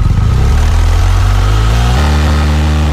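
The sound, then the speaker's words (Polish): A police motorcycle engine being tested for noise levels gives a loud, deep, steady rumble that holds throughout, its tone shifting once partway through. “a ten dźwięk, który Państwo usłyszeli, to motocykl policyjny. W obecności naszego reportera ten motocykl był przebadany.”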